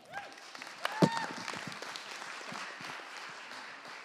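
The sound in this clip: An audience applauds to welcome a speaker at the close of a talk series on compassion, a fairly faint, steady wash of clapping with a few sharper claps standing out early on.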